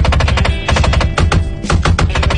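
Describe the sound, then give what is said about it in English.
Rapid bursts of machine-gun fire from a sound effect evoke a firefight, the shots crackling in a dense, loud, continuous rattle with brief gaps and no voices. “My window actuators are going out, so it sounds like I'm having a hell of a firefight in here.”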